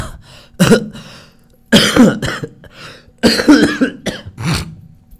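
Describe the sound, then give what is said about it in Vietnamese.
A man coughs in a fit blamed on cold air conditioning, several harsh, throaty bursts in clusters separated by short pauses, with some throat clearing mixed in. “Tự nhiên ho quá. Điều hòa lạnh.”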